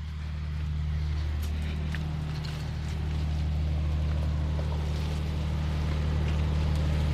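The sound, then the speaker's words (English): A generator runs in its own small housing a short distance from a hut, where it backs up solar and hydro power. It gives a steady, unbroken low droning hum with a rough mechanical texture throughout. “I can hear the generator going. Would we be able to just go and have a quick peek at it to see what it sounds like up close?”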